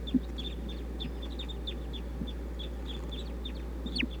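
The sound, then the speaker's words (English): A bird being tested gives many short, high peeping chirps in an irregular series over a steady low hum, with a slightly louder call near the end. “Now trying to test bird 247.”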